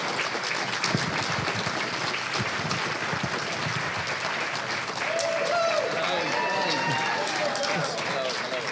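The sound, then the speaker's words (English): Sustained audience applause welcomes a guest on stage, an even wash of clapping throughout, with voices talking over it in the second half. “Ladies and gentlemen, please welcome up to Podshock, Mr. Phil Collinson. Give it up for Phil.”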